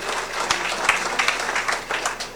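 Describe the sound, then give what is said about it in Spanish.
A crowd at a religious gathering honouring an image of Saint Michael the Archangel breaks into applause: dense, steady clapping with a few sharper individual claps standing out. “Hoy quiero pedirles a cada uno de ustedes que podamos brindarle fuertes aplausos a Dios en primer lugar,”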